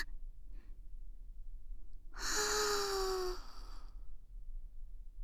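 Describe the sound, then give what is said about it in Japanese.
A slow, deep breath taken during a calming exercise. One long, airy breath lasting nearly two seconds stands out over a constant low hum, with faint soft sounds before it. “ゆっくり深呼吸しよ”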